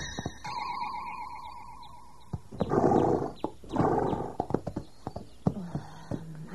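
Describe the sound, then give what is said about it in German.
A pony kicks out backwards at a fence. Two loud heavy crashing thuds are followed by scattered sharp knocks and clatters of varying strength. “Jetzt kalt Snoopy nach hinten aus. Er macht den Zaun kaputt. Will raus.”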